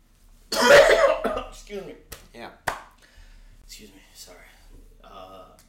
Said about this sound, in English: That sometimes you have a coughing fit in the middle of a sentence.